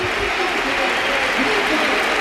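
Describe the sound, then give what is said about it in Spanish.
Loud applause from a football stadium crowd standing to see off a substituted player, a dense, steady roar of clapping and crowd noise that holds without a break throughout. “Esto se pone en pie, se pone en pie el Ramón Sánchez Pizjuán para despedir a Lamin.”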